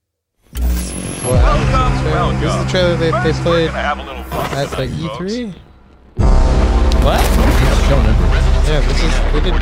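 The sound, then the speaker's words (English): Trailer for a video game shown at E3: a loud, dense mix of booming gunfire and artillery-like blasts over a sustained tonal score, dipping briefly and then returning even louder and fuller. “This is the trailer they played at E3. The art style is so sick with these things. They dropped these trailers earlier this year.”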